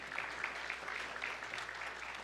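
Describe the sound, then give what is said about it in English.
Faint clapping from a church audience during a sermon, with many hands making a soft, even patter that holds steady throughout. “Somebody ought to clap their hands for that.”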